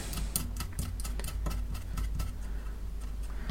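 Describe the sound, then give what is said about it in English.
A small nut being turned by hand onto a screw on a circuit board while the base is pressed down to stop the screw spinning, giving many quiet, irregular ticks and clicks. “I'm just putting a little bit of pressure down on the base to stop the actual screw spinning so the nut will go round okay.”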